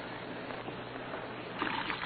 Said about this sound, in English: Red Beaver lay sprawled in his bunk, watching water pouring from his wash basin to the cell floor.